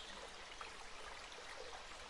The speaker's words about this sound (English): and the gentle sound of a babbling brook in the distance soothes your senses.